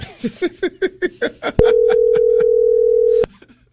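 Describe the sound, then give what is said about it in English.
A telephone dial tone sounds while a call is placed back to a number that just hung up: a steady, even, unbroken tone holds for under two seconds and then cuts off abruptly. “They just hung up. I'm going to call them one more time.”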